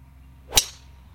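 A golf ball struck straight with a Remix 120 club gives a single sharp, bright crack of impact that decays quickly against quiet background hiss.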